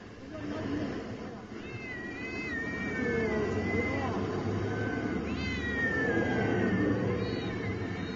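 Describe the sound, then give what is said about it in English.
Cats trapped inside plastic bags on a sidewalk meow in several plaintive, high, wavering calls over a steady, noisy background with a low murmur of voices. “What you're hearing are a bunch of plastic bags on the sidewalk, and the cats are in there meowing”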